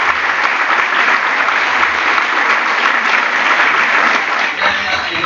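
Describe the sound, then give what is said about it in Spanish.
Sustained audience applause at a members' meeting on civil liability, dense and steady clapping from many hands that holds at an even loudness throughout without a break. “me parece que se merecen un fuerte aplauso, ellos están trabajando.”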